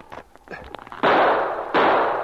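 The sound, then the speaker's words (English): Gunfire from men hidden among the trees in a radio drama shootout: two loud, sharp blasts, each with a long noisy tail, following a stretch of quieter scattered clatter. “The men among the trees showed themselves for the barest second, and they fired, and the sergeant missed his target several times.”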